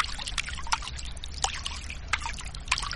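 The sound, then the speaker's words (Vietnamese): Water runs from a tap into a basin during hand washing, filling the basin halfway: a steady, moderately loud trickle and splash with a few brief sharper splashes scattered through it. “rửa tay, nước chảy đầy nửa bồn”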